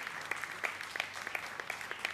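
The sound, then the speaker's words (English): Light applause for a couple and their baby welcomed back at a church service: a thin, fairly quiet patter of scattered hand claps, with several sharper claps standing out at irregular intervals. “Can we give them a big, big round of applause?”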